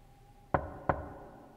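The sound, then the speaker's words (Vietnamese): Knocking on a door, two sharp, hollow raps about a third of a second apart. They are fairly quiet over a faint low hum, with silence before and after. “Anh nheo mắt nhìn về hướng cánh cửa, tiếng gõ cửa vẫn cứ vang lên, ngắt quãng.”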